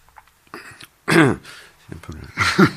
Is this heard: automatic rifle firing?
no